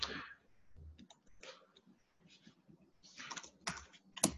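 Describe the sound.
Rapid clicking of a computer keyboard as a command is typed into a terminal to start a software sandbox, with many irregular, crisp keystrokes in uneven bursts and no voices.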